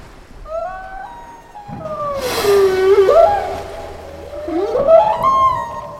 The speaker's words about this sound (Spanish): Es el último momento del ritual de las ballenas.